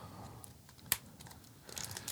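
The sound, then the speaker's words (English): Someone opens a disposable vape pod package by hand, without a knife, making one sharp snap followed by quieter crinkling of packaging that grows busier toward the end. “You don't have to use a knife to open these packages. But my nails are short. I've cut my nails so short.”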